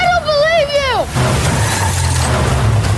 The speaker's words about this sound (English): So what you hear there at the end of the trailer is Sylvester Stallone's character, who is Joe Smith, aka Samaritan, getting hit by a car and totally gets annihilated